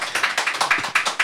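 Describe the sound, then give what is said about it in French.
Audience applause at a live show, a brief burst of dense clapping that swells in quick, uneven pulses with no voices over it. “Bien sûr, sans conteste le public, bien sûr, qu'on peut applaudir quand même. Merci à eux.”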